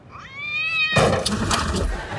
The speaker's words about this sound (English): The suicidal cat.